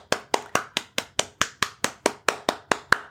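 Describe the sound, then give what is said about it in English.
Hands clap in a steady, even rhythm, with many sharp, evenly spaced claps at a brisk pace and no other sound. “that's my round of applause for you, because that is absolutely worth celebrating.”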